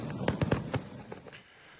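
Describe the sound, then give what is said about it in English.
Fireworks going off during Diwali celebrations: a few sharp, cracking bangs in quick succession, strongest early on, then a couple of fainter pops before they die away into quiet background hiss. “lighting earth and oil lamps and setting off fireworks as part of the celebrations”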